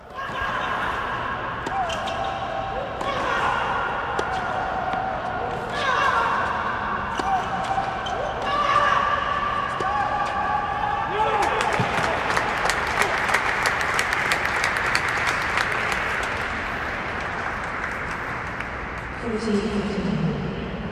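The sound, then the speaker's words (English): Crowd of 147 spectators at a women's tennis semifinal between Vika and Serena in the third set: a voice talks over a hushed stretch, then applause breaks out with many claps, lasts several seconds and fades away. “Let's listen to what a little bit of what it sounds like hearing Vika and Serena duel it out in the third set of their semifinal in front of 147 rapt audience members”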